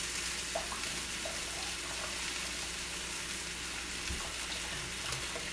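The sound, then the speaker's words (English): Water runs from a kitchen tap as a cooking spatula used on ground pork is rinsed off, making a steady, fairly faint hiss that holds constant throughout with no talk. “My spatula is just going to cook. I'm going to rinse it off.”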